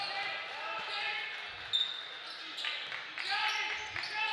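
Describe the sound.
Basketball dribbling on a gym court during a high school boys' game between Exeter and Springford: a few low, dull bounces under steady crowd murmur and commentary.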